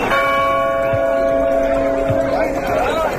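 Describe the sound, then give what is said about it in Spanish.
Church tower bells ring in an Aragonese village in summer, a sustained metallic tone with steady humming overtones that slowly decays over faint background noise. “El de las campanas de la Torre de la Iglesia”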